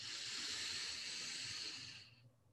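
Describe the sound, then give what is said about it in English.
A forceful mouth exhale during a breathing exercise: one long, steady, airy rush of breath that holds for about two seconds, then tapers off into quiet. “And you want to forcefully blow so that you really feel that solar plexus pull in, and think of it like a sponge squeezing out any excess energy, right?”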